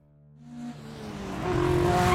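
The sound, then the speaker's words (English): Car engine of a Mercedes speeding through the night, a steady roar that builds gradually louder and fuller over about two seconds, with no voices. “My Mercedes sped east through the darkness. I clutched the wheel, staring through the windshield with lantern eyes.”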